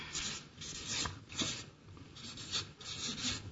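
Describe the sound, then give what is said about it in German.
Scratchy strokes of adjectives being written on a board, a run of short, rasping rubs coming in uneven bursts, fairly faint and with no talking over them. “Ich schreibe mal hier dann die Adjektive auf.”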